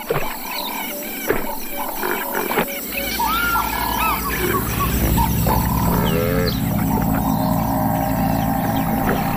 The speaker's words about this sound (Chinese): 河马们过着平静而美好的生活。没有天敌，整天都泡在水中降温，食物就在嘴边。